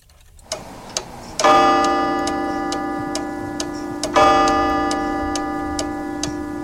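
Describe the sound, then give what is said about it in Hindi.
Steady ticking of a studio clock in a radio studio, with two ringing chime-like tones that swell and slowly fade beneath the continuing ticks. No voices are heard. “Radio संगम तो चलते हैं जी time check कर लेते हैं कि इस वक्त studio की घड़ी की सुइयां क्या कह रही हैं”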